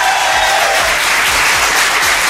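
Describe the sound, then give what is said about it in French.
Studio audience applause: a dense, steady patter of many hands clapping at an even level throughout, with no voices over it. “Tant que vous applaudissez”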